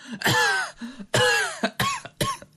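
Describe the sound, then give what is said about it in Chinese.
A man coughs repeatedly after choking on a mouthful of wine. Several loud, rough coughing bursts come in quick succession, with short pauses between them. “他连连咳嗽啊，呛了口酒啊”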